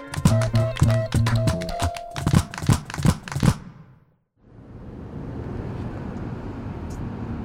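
A car drives along with its windows rolled down, giving a steady rushing blend of wind and road noise that begins after a burst of rhythmic music stops abruptly.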